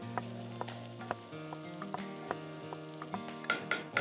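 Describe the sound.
Chopped onions fry in a pan with a faint sizzle and scattered soft crackles over a steady low tonal background.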